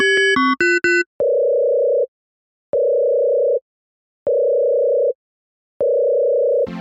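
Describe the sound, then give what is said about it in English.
A telephone being dialed: a quick run of four short keypad beeps, then four long, steady ringing tones separated by even pauses, ending in a brief burst of noise. “I'm dialing.”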